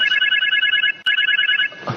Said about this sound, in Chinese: 你们经理电话，你们经理的电话